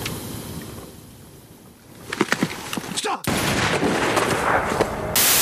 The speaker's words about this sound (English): He asked me to give you a message before he'd shot himself.